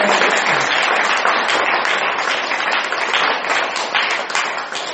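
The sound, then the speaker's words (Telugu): Group applause fills the whole span, a dense, steady wash of many hands clapping together at even loudness, with no talk over it. “వాటికి కూడా ఒకసారి చప్పట్లు కొడదాం”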